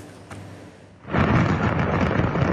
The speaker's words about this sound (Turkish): Havai fişek fabrikasındaki patlama amatör kameraya böyle yansıdı.